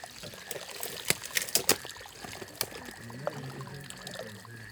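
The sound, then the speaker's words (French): Splashing from someone walking through water: a few irregular, sharp splashes and sloshes over a steady trickling of moving water, fairly faint, with no talk. “Marche plutôt dans l'eau.”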